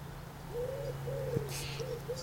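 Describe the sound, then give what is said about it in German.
A male common starling calls near its nest in a tree where the young are being fed: a few low, whistled, cooing notes rise and fall over a steady low hum. “Ich weiß nicht, ob ihr ihn hört, der Starenpapa.”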